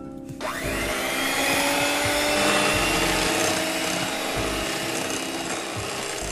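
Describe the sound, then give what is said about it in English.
An electric mixer whirs as it beats three large eggs at medium speed. After a brief quiet start, a steady, loud droning motor whine sets in and holds evenly to the end with no talk over it. “And 3 large eggs. Okay, so now we beat at medium speed for 2 minutes. So we've got our electric mixer ready.”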